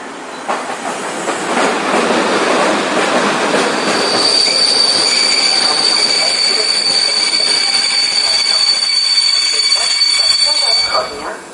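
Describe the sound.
A train pulls in on a station track with a continuous loud rumble and clatter. From midway, a sharp, sustained, high-pitched wheel squeal joins and carries on to the end.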